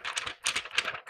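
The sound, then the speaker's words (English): An Alberta birth certificate being handled, its paper giving a few quick, faint crisp rustles and crackles in short bursts. “That's the sound of an Alberta birth certificate that I've never had”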